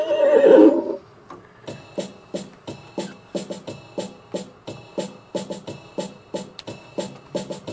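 A horse lets out one loud whinny, then many steady, rhythmic clip-clops of its hooves follow.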